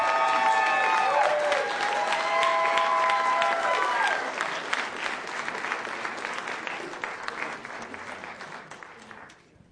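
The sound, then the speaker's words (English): Audience applause and cheering greet debate candidates as they come on stage. The clapping starts full and loud, then gradually thins and fades out over about ten seconds. “You can go ahead and clap here in a second as we bring the candidates out.”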